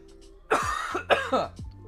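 Coughing brought on by a tickle in the throat: two harsh, rasping coughing bursts, each about half a second long, close together and fairly loud, with no talk over them.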